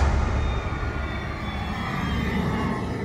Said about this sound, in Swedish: Strax före 22 på kvällen landar SAS-planet SK 1254 på Arlanda flygplats.